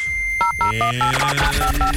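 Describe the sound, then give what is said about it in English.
The 'free money machine' sound effect from a morning radio prize giveaway: a quick run of bright electronic beeps hopping between two pitches over sustained synthetic tones, fairly loud and alone. “Let's fire up the free money machine, see how much money we got for you right now”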